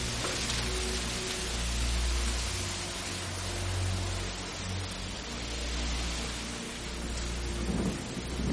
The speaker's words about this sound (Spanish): Fuera, Amaya camina bajo la lluvia.